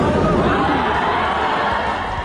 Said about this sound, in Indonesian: Gemuruh sorakan penonton mewarnai pertarungan dua petinju profesional ini.